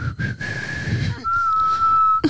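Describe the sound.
A person whistling a song tune, breathy notes at a steady pitch: a few shorter tones broken by gaps, then one long sustained note near the end, moderately loud with no talk.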